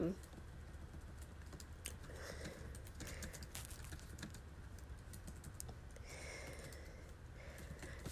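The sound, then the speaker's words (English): Faint typing of a quick email on a computer keyboard, with rapid, irregular key clicks running continuously at low volume. “I'm like typing a quick email.”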